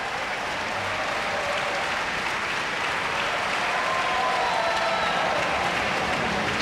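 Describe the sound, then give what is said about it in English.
Sustained applause from an Atlanta concert audience pressing for an encore: a dense, even wash of clapping that stays loud and unbroken from start to finish. “this Atlanta audience was in accolade mode. They were not about to let him get away without an encore.”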